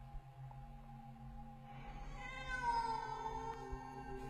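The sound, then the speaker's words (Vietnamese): A cat meows once, a drawn-out, wavering cry that rises out of a low steady hum and stays faint. “Bỗng có tiếng con mèo kêu phát ra ở phía bên trái.”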